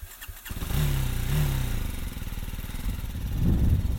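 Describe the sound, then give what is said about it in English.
A BMW G 310 GT rental motorcycle engine starting up: a brief starter chatter catches into a steady, low, throbbing run, which swells louder in a short burst of revving near the end. “Anyway, I'm getting the bike going. I'm going to put this helmet on and my gloves. And I'm going to take a little cruise around the island.”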